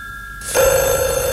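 A telephone starts ringing partway through, a bright, steady electronic tone that holds at an even loudness to the end, with no voices.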